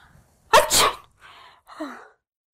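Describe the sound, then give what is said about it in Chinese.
A person with a cold sneezes once, sharp and loud, followed by two quieter breathy sounds. “他感冒了。一下午都在打喷嚏”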